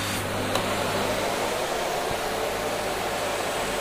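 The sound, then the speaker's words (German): A vacuum cleaner running on its quiet, high-suction setting: a continuous, even whooshing roar with a low hum underneath, steady throughout with no voices. “Jetzt steigern wir den mal auf die Stufe, die hier mit so einem Ohr gekennzeichnet ist, auf diese geräuscharme Stufe mit sehr hoher Saugkraft.”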